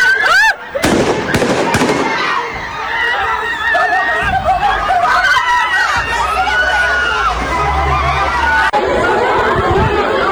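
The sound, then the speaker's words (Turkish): Gunshots fired by a man into a crowd after a funeral meal: a few sharp bangs cut through loud, steady crowd chatter, with several shots early on and one more near the end. “Cenaze yemeğinin ardından elinde silahla gelen bir şahıs kalabalığın üzerine ateş açtı.”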